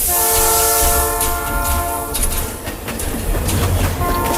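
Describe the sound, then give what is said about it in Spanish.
A train pulls out of a station, its horn blaring a steady, harmonic-rich tone through the first half while a loud rumble and wheel clatter continue throughout. “De nuevo el Chano se escapa en el primer tren que sale de la estación en dirección desconocida.”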